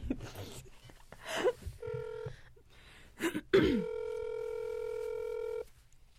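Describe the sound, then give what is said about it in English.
A phone call being placed from a phone: after a stretch of voices, a brief tone sounds, then a long, steady ringing tone holds for about two seconds before cutting off. “we have to call on your phone because I need the Google Doc”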